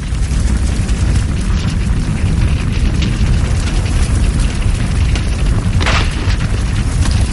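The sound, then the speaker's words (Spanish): A truck explodes in flames, a loud, dense roaring rumble that fills the whole clip at a steady level, with a brief brighter crackling burst late on. “El fuego llega al camión. El camión explota. Una gran llamarada se alza detrás de los gemelos”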